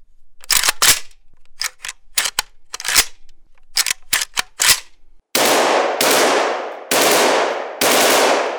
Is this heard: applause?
no